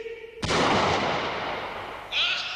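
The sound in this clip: A rifle is fired at a bird of prey circling overhead, giving one sharp, loud crack that ends in a long, rumbling decay, with no talk around it.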